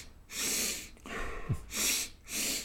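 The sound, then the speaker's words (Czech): Nasal breathing technique for running, with interrupted inhales and a longer exhale. A few loud, hissing breaths through the nose come in separate bursts with short gaps, and no talk. “taková zvláštní dechová technika, nevím, jestli jste to tam slyšel, že člověk se snaží dýchat nosem, což je někdy těžký, a že má dva nádechy s přerušením a pak jeden delší výdech, takže když to předvedu”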